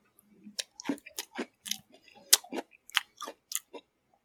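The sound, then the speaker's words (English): Crunchy chewing of Oreo cookies eaten with milk: many sharp, irregular bites and crunches, fairly faint, with no talk. “Milk and Oreo.”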